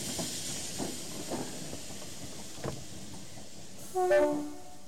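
A train at a London rail station platform: a steady hiss runs under a few soft knocks, then one loud, short horn blast with a strong tonal chord near the end.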